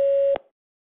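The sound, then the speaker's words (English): A voicemail recording beep on a phone line: one steady, pure, mid-pitched tone lasting about a third of a second that cuts off abruptly with a faint click, followed by silence. “Reply with a message. Please record your message. Record after the tone. Hit any key when you're done.”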